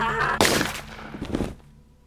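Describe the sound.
A gunshot rings out as a single loud, sharp crack that decays into a rumbling tail, with a smaller burst following shortly after before the sound fades.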